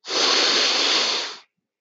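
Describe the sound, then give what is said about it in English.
One deep breath is drawn in through the mouth, a broad, airy hiss that swells quickly, holds steady for over a second, then cuts off into silence. “Taking time to breathe. Good morning. Try that again. Inhale.”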